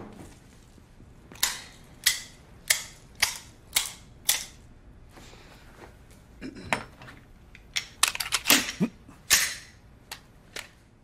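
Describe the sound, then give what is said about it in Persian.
A gun is handled, giving sharp metallic clicks and clacks: six evenly spaced snaps, then a denser, irregular cluster of quicker mechanical clicks, with no voices. “پس تفنگ تو میخوای؟”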